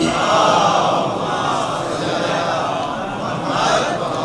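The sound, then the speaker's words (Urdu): Crowd loudly chanting a welcoming slogan for reciters at a religious gathering: a dense, sustained roar of many voices that holds steady and swells slightly again near the end. “باواز بلند نعرہ استقبال۔”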